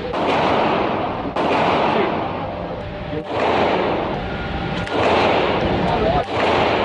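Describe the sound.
Gunshots from a semi-automatic gun at a gun range: a few sharp, loud reports spaced out over a steady, rough background roar.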